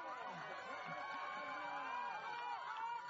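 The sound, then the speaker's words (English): Norwegian teammates cheer on a telemark skier as she reaches the finish line at a World Cup race in Slovenia, their shouting voices forming a steady, busy crowd sound across the whole clip. “Andrea Fiska Haugen being cheered on by her fellow teammates.”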